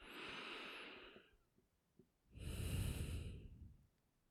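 A deep breath in and out: two long, soft, airy breaths separated by a short pause, heard alone.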